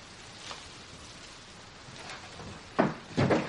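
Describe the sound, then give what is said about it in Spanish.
A house door being closed: two soft thuds in quick succession near the end, after a stretch of faint background hiss. “Una vez dentro el marido cierra la puerta.”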